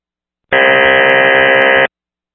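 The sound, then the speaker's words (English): An unmodulated radio carrier tone: a single loud, steady buzzy hum lasting just over a second, starting and stopping abruptly. “Carrier only.”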